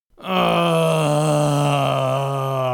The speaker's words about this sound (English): He continues to groan.